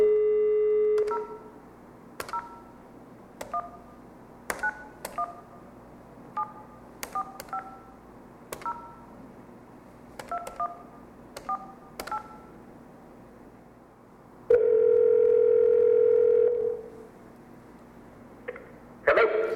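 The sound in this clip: Telephone keypad tones dial out a call: many short, crisp beeps in an uneven rhythm, then one longer steady tone and a few more faint beeps, with no voices.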